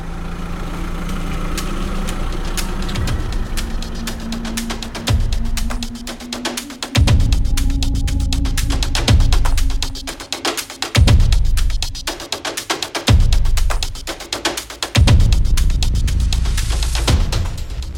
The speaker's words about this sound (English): The Grand Imperator listened to the smooth rumbling of the diesel motor as he headed east